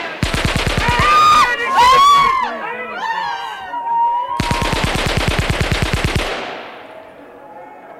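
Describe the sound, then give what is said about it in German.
Submachine gun fire from two machine pistols sprayed over the heads of a crowd in city chaos: two long bursts of rapid, loud shots, with shouting and screaming voices between them. “Sie haben über die Köpfe geschossen, du kannst wieder hochkommen.”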